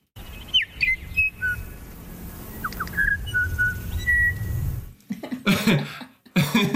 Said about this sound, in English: So just some examples of how musical bellbird song can be. This is on Burgess Island, where the females all sing something that's vaguely related to happy birthday kind of sound.